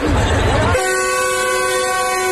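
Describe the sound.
A train horn sounds at an old Republic-era station platform: a brief burst of low rumbling noise gives way to a steady, sustained horn tone that holds loud and even to the end.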